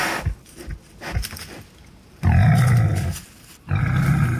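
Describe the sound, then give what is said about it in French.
Wild boar very close to the microphone in a forest: a few short, low grunts followed by two long, loud, rough snorting bursts. “Ce qu'on entend actuellement, c'est un sanglier. Il a l'air terriblement proche, ce sanglier.”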